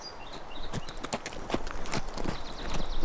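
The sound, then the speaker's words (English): Horse hooves clip-clop as a rider approaches, a steady walking rhythm of many crisp hoof strikes that grows slightly louder toward the end. “Frank rode back to Jerry now and swung down from the saddle.”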